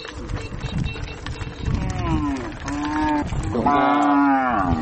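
Cattle mooing in a few deep, drawn-out lowing calls that grow louder toward the end, over a steady bed of background noise.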